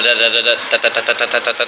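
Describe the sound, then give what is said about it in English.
A voice imitates a small plastic din-din (damru) drum being smacked, like those sold in Vrindavan during Shravan month. It gives a fast, steady string of clipped "da" syllables in an even rhythm. “A din-din drum is, you know, these little, you see all these people during the Shravan Mas, they're selling all these little plastic drums,”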